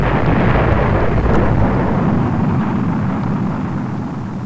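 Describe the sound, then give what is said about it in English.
Rocket blast-off in a space video game, launching from the Cape Canaveral pad. A loud, steady, noisy roar with deep rumble that gradually fades toward the end, with no voices. “Press B to blast off. I'm going to press B for blast off. Initiating startup sequence.”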